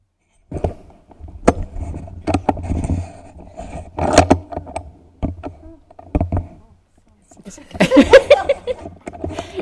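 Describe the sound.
A microphone being handled and adjusted during an opening talk at a women's retreat, giving irregular thumps, knocks and rustling bumps of varying loudness with short quiet gaps.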